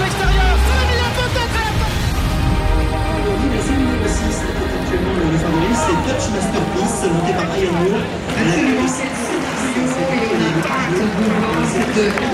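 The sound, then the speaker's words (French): An excited crowd fills packed racecourse grandstands just before the start of a major horse race, a dense continuous hubbub of cheering and chatter with a voice talking over it throughout. “le public s'enflamme parce que le départ de la course va être donné dans pas très longtemps. La ferveur monte, les tribunes sont pleines à craquer.”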